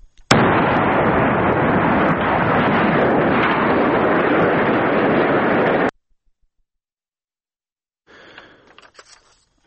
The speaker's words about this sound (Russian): российская администрация вчера взорвала котельную в Мариуполе, как написал заммэра города Петр Андрущенко. Взрыв был очень мощным.